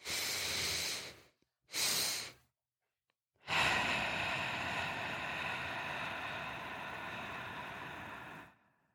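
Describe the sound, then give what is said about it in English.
Breathing exercise done alone: two quick inhales in a row, a short pause, then one long, steady exhale of airy breath noise lasting about five seconds before fading out. “you really want to focus on making the exhale longer than any of the two inhales. So it should go a little something like,”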